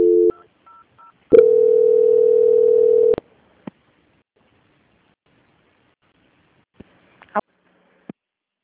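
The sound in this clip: A telephone call transfer tone: a few short beeps, then one long, steady mid-pitched tone lasting about two seconds, followed by near silence broken by a few faint clicks.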